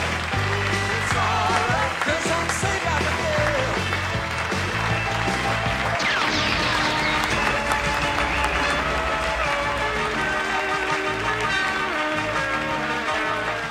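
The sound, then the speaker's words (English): Audience applause at a hall of fame induction ceremony: dense, steady clapping and crowd noise that holds at an even level for the whole stretch, with a busy, layered wash of sound beneath it. “They're clapping even harder.”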